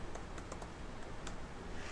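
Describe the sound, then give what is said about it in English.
Keystrokes on a computer keyboard as a username and password are entered: a few faint, irregular clicks over a low, steady hiss. “You have to type in a username for this machine. Go ahead and type in a username and a password.”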